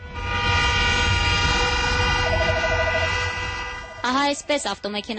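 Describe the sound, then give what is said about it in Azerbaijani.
Car horns honk for a wedding procession in Yerevan, sounding as a steady, layered blare that holds for several seconds before fading. A voice then begins speaking over the end. “Bax beləcə, avtomobil siqnalları HQ ilə Yerevan sakinlərini şəhərdə toy olmasaq da xəbərdar edir. Siqnal səsi gəlin evinə gedəndə də, kilsiyə, xüsusən də gəlin bəy evinə aparılanda da səslənir.”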